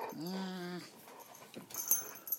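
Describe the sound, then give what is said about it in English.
A dog whimpers in a thin, high, wavering whine that holds steady for about half a second, then trails off into quieter snuffling sounds. “What are you doing, you silly dog?”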